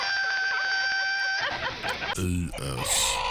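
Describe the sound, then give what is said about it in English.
A seal screaming: a loud, sustained, wavering cry gives way to rough grunting bursts and noisy squeals. “Seal scream.”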